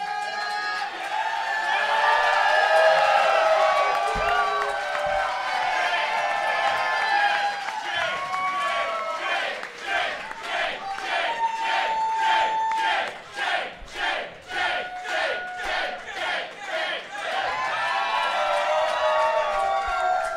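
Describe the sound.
Loud crowd cheering and whooping from an audience welcoming a guest onto a show, swelling into rhythmic pulsing crowd noise with clapping, with voices calling out throughout.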